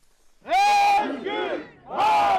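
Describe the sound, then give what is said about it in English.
Hundreds of protesters chant together outside an Istanbul courthouse. A loud, sustained, sung-out phrase of massed voices dips briefly, then swells again. “The free press shall not be silenced, hundreds of protesters chanted.”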